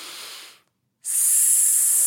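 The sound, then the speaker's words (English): A voice imitates a snake with a hissing exhale: a breathy hiss fades into a brief silence, then returns louder and sharper. “like a snake. And what that does is it audibly allows me to hear that I'm breathing.”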